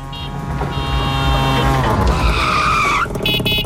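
A tuk-tuk driving: a loud buzzing engine with whining tones that shift in pitch, running continuously before cutting off sharply near the end.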